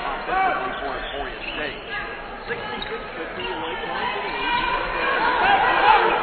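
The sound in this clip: A basketball is dribbled on the court during a women's college game between Northwest and Emporia, bouncing under continuous play-by-play commentary and crowd chatter.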